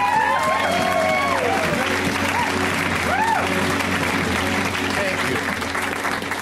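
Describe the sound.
A comedy club audience applauds as a comedian comes on stage: dense, steady clapping holds throughout, with a few voices whooping and cheering over it.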